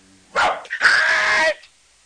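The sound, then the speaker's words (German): A large dog barks in a workshop: two loud vocal bursts, a short bark followed by a longer, drawn-out, rough bark, then quiet. “Halt! Nicht aus der Werkstatt gehen, großer Hund!”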